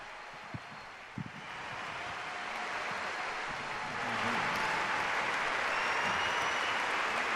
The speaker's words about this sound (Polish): Ten olbrzymi aplauz jest wyrazem wdzięczności za słowa Ojca Świętego